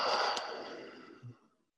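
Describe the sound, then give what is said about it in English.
Soft, long exhale during a breathing exercise: a breathy rush that starts strong and gradually fades to silence. “Just breath in and breath out.”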